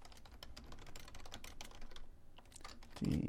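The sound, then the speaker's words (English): Typing on a computer keyboard, a quick, uneven run of many soft key clicks at a low level, ending with a duller thump. “I'm working on the computer screen here as we talk.”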